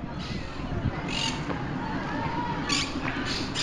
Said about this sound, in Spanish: Acabo de ver un loro, mira, dos loros sí, son. Sí, sí, cotorritas. Hay un cotorritas, montón.